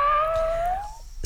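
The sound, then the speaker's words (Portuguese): A voice imitates a cat's meow: one drawn-out, tonal call whose pitch climbs slowly and steadily before breaking off, loud and alone. “Fiz aniversário dia 27. Manda um miado pra mim.”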